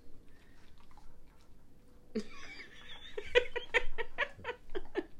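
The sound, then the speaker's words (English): A dog chews noisily on something, making many sharp crunching and clicking bites in an uneven rhythm after a quieter, murmuring stretch. “If you hear any chewing in the background, it is our dog.”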